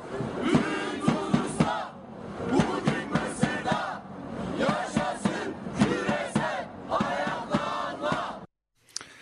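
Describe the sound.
A protest crowd in Turkey chants loudly in rhythmic, shouted bursts in support of uprisings in Tunisia and Egypt. Many voices rise and fall together almost without pause, then cut briefly to silence just before the end.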